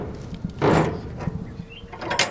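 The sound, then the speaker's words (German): Doors of a shipping container swing open with one loud, broad scraping clunk, followed by a few fainter knocks and another short rattling burst at the end. “Nachdem die Türen eines Überseecontainers geöffnet sind”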